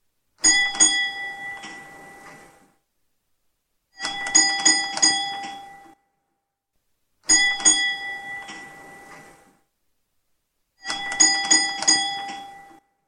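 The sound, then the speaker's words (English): A bell on an electric tram rings in four separate bursts, each a rapid run of bright, metallic clangs lasting about two seconds, with short silences between them and no other sound. “The sound you just heard was a recording of a ringing bell on an electric tram.”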